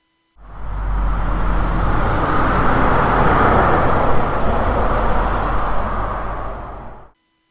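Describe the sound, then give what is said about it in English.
A car passes by with a broad, steady rushing roar that swells slightly midway and then cuts off after several seconds, with no voices. “It's the reason why a car passing you sounds like this.”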